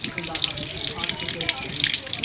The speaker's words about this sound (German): Die erste Station jetzt hier am Maxbrunnen, direkt an der Quelle. Meine Aufgabe war es, mal Wasser zu trinken.